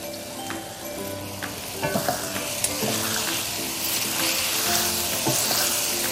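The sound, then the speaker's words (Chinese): Chicken pieces, red bell pepper chunks and edamame sizzle in a pan as the sauce cooks down nearly dry, a steady loud frying hiss broken by scattered clinks and scrapes of stirring. “把鸡块呢稍微煮一下。当锅里的汁水基本上快烧干的时候，我们加入红灯笼椒块、毛豆子，”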